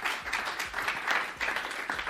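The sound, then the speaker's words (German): Applause for a guest at a live event, with dense, steady clapping from an audience that holds a fairly even level throughout without pause. “Dann bitte ich noch einmal um einen Applaus für unseren Gast, Nico Wachsmann.”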